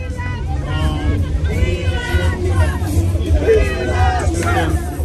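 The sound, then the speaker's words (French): Crowd babble from about a hundred political supporters gathered outside a residence in Palm Beach in the evening: many overlapping voices chattering continuously and loudly, with no single speaker standing out. “Et vous l'entendez, une centaine de partisans de Donald Trump se sont rassemblés hier soir devant sa résidence à Palm Beach.”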